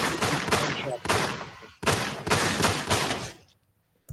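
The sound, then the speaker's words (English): Gunfire sound effect: loud volleys of rapid shots in a few bursts separated by short gaps, the last volley tailing off into near silence. “All right, shots fired. Shots fired.”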